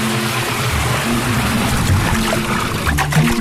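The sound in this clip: A small stream of shower water runs steadily, a continuous soft hiss of flowing and splashing water with a low rumble beneath it and no talk.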